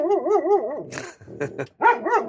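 A dog barking and whining: a wavering, high-pitched whine first, then a few short, sharp barks, then more whining.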